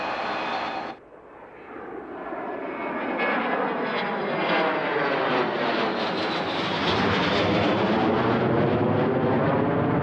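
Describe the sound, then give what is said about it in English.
An airliner takes off from a runway with a broad engine roar. The roar swells steadily and grows louder over several seconds after a brief quieter moment at the start. “You're now cleared for takeoff on runway number 1.”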